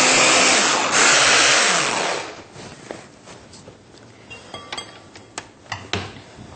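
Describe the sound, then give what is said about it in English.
A blender whirs loudly as it blends almond butter, a dense steady motor roar for about two seconds. It then cuts off, leaving a quieter stretch with a few light clinks and taps. “few more tablespoons of almond butter left. So blend it also.”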